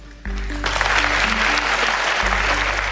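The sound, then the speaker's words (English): Applause from a debate hall audience as former Vice President Joe Biden and President Donald J. Trump are welcomed to the stage in Nashville, Tennessee; dense, steady clapping starts abruptly and holds loud throughout. “The audience here in the hall has promised to remain silent. No cheers, boos, or other interruptions, except right now, as we welcome to the stage former Vice President Joe Biden and President Donald J. Trump.”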